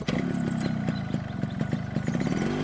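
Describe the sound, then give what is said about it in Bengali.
A motorcycle engine runs steadily and fairly loudly, its low drone marked by a regular, rapid ticking beat with light mechanical clatter throughout. “পাণ্ডেজি তার bike নিয়ে অফিসের উদ্দেশ্যে রওনা দিল।”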